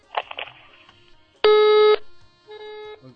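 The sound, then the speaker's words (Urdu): A telephone busy tone sounds after a call line is cut off: two steady electronic beeps, the first loud and the second softer, separated by a short silence. “Line کٹ گئی.”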